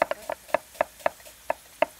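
A knife chops a large sweet onion outdoors in a quick, uneven series of crisp, sharp strikes on a board, each short and clicky. There is no talk.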